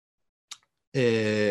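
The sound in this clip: A single sharp computer mouse click, made while a booking slot is selected on a scheduling page, stands alone in near silence before a sustained voiced tone follows.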